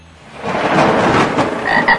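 Frogs croaking in a dense, loud chorus of overlapping rasping calls that swells early and then holds steady throughout.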